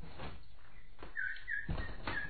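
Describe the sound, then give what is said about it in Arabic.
A nightingale sings sad melodies in a few short, high chirps and thin tonal notes over a low background murmur. “فلما فتحت الباب قابلها البلبل بأنغام حزينة كأنما يبثها شجونة أو ينقل إليها أخبارا أليمة.”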